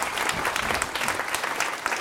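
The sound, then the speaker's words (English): Applause from an audience at a group event: brisk, dense clapping with sharp individual claps standing out, steady and fairly loud for the whole short stretch. “A round of applause.”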